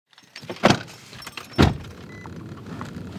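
A car on back roads at night gives two sharp, heavy thumps about a second apart, then a steady low road hum.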